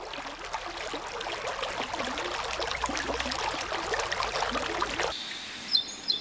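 Birds calling around a large dug reservoir with planted forest and wildlife: many quick, busy chirps over a steady watery hiss, the chorus thinning out near the end.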